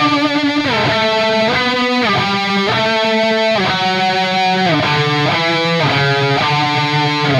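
Electric guitar chords in drop D tuning played through effects, a thick distorted tone with a slight chorus shimmer, moving through several sustained chord changes at an even, loud level without pause.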